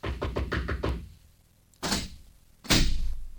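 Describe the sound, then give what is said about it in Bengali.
Someone knocks on a door with a quick run of sharp raps. After a short pause come two heavier, noisy bursts from the door as it is worked open. “কেডা, দরজা খোলেন, দরজা খোলেন।”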